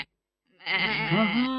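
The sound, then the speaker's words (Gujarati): A goat bleats once: a single loud, wavering cry that lasts about a second and follows a moment of silence. “આ તો બકરી બેન આવ્યા.”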